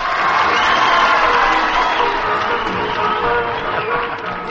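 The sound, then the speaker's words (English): A studio audience at a quiz show cheers and applauds the quizmaster in a loud, dense wash of shouts, whoops and clapping that holds steady throughout. “Now let's have a warm welcome for your Sheffield quizmaster.”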